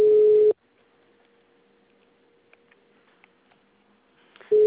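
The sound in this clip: A telephone line tone sounds while a call is being placed: a steady, mid-pitched beep, then a long near-silent gap, then the same tone starting again.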